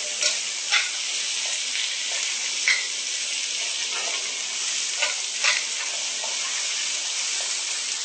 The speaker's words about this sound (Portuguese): Sempre mexendo 2 colheres de baixo para cima para não machucar os vegetais.